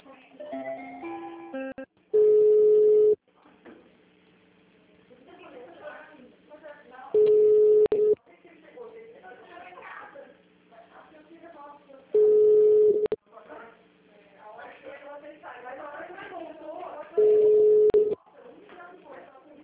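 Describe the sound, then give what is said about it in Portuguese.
A telephone line at a regional hospital plays its hold tone while a call is transferred to the personnel department: four steady mid-pitched beeps, evenly spaced about five seconds apart, with softer tonal sounds filling the gaps. “do Hospital Regional, vou te passar no setor pessoal, um momento.”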